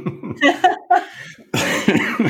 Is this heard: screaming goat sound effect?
no

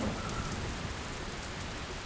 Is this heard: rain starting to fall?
yes

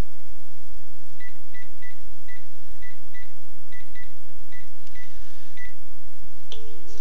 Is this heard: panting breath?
no

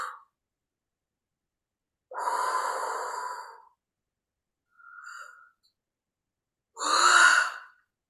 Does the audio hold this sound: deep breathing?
yes

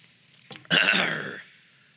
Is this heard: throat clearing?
yes

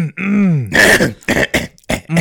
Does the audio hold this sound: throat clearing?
yes

